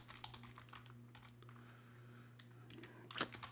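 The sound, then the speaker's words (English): Soft, uneven tapping of typing on a computer keyboard, with bursts of quick key presses over a steady low hum and a brief flurry of sharper clicks near the end. “Just type in how many championships KD has. That's a good thing to type in, huh? Here we go.”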